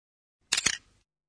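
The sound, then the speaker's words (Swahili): A camera shutter opens with a crisp, quick double click, heard alone against silence. “Ni sauti ya kufunguka kwa kilango cha lenzi ya kamera.”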